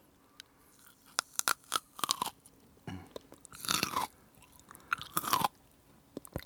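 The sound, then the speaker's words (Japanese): Crunchy chewing with the back teeth, irregular bursts of biting and grinding with sharp crackles and longer crushing stretches separated by quiet gaps. “もっと奥歯で噛んでください。奥歯でやってください。”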